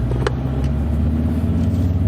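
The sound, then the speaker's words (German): A car drives along at an easy pace: a steady, low engine and road rumble that holds evenly throughout, with no voices over it. “Und fahren gemütlich dahin. Auto.”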